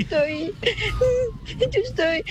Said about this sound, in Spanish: Hola, no llores, tranquila. Hola. Ay, cómo le chilla el chiquito.